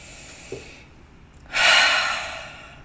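A deep breath in and out during a guided breathing exercise: a faint airy inhale first, then a loud, long breathy exhale that swells and slowly fades away, with no talking.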